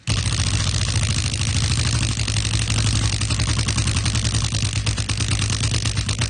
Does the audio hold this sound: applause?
no